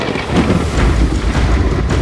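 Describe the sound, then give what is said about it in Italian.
Storm wind and waves hitting a rubber dinghy at sea: a loud, dense roar of rushing water and gusting air that stays rough and continuous throughout, with no voices. “In poco tempo una tempesta si abbatte sul gommone. La barca ondeggia paurosamente, l'acqua salata le entra in bocca.”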